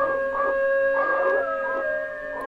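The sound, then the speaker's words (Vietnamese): Wild dogs howl near a cemetery: sustained, wavering tones layered together, holding steady for about two and a half seconds before cutting off abruptly. “chó hoang từ đâu bỗng nhiên cứ rú lên liên hồi văng vẳng lại vào bên trong khu nghĩa địa”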